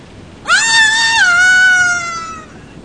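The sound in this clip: A woman screams in fear: a loud, high, sustained cry held for about two seconds, dipping slightly in pitch partway through before trailing off.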